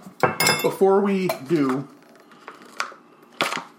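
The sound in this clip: Knife and plate sounds as cheddar cheese is sliced on a plate: a few sharp clinks and taps, some under a person talking at the start, then isolated knocks alone.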